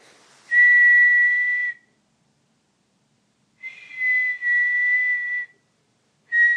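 Shrill whistling from someone strolling down a street: a few sustained, identical high tones at a steady pitch, separated by silent gaps, with the last tone cut off at the end.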